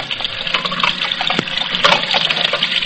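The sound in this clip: Tap water runs continuously while dishes are washed at a sink, a steady, fairly loud gushing rush that wavers slightly in texture, with no voices.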